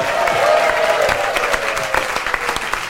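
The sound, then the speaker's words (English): Audience applause at a comedy show's Christmas special as a band leaves the stage, brisk clapping from a crowd that stays full and lively, thinning slightly toward the end. “Ladies and gentlemen, we're gonna bid goodbye to MP4 for now, but they'll be back later. Please give it up for MP4.”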